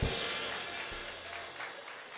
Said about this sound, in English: Clap your hands and give God some praise. Clap your hands and give God some praise.